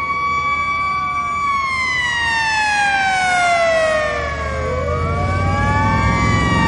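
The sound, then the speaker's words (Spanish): Police patrol car sirens wail along a road lined with oil pumpjacks. Several loud, continuous siren tones overlap and sweep up and down in pitch, with a low vehicle rumble underneath. “Los coches patrulla se acercan entre las extractoras de petróleo que jalonan el camino.”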